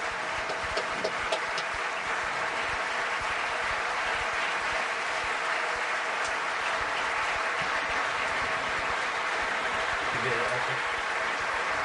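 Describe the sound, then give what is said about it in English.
Sustained applause in the UK House of Commons as Parliament gives the President of Ukraine a standing ovation, a steady, unbroken clatter of many clapping hands lasting about twelve seconds. “Parliament gave him a standing ovation. Take a look.”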